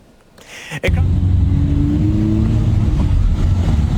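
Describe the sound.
Trucks driving in road traffic give a heavy engine rumble that swells in after a quieter start and a sharp knock, then stays loud and steady throughout.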